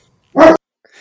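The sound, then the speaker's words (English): A large dog in an office lets out a single loud, full bark, followed after a short pause by a brief faint sound. “I think that was a dog in an office, which is a sign of how the world has changed. A large dog, though, I think.”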